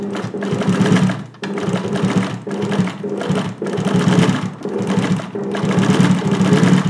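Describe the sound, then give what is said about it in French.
A sewing machine runs in a steady, buzzing whir of rapid stitching, broken by brief pauses at fairly regular intervals before it starts up again at the same loud, even level. “Vous avez deviné ? C'était la machine à coudre de Camille”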